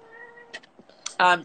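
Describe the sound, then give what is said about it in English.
A cat gives one loud, short meow at the end, after quieter voice sounds and faint tones. “So Maura's there, and there were two loner cats as well.”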